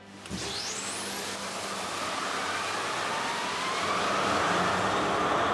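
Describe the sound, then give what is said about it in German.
Two 20-cylinder main diesel engines, 23,000 horsepower together, rev up in the engine room of a fast emergency tug. A dense roar builds steadily in loudness, and a high whine sweeps upward at the start. “Der Maschinist zeigt den Azubis, wie das geht. 23.000 PS auf Touren bringen.”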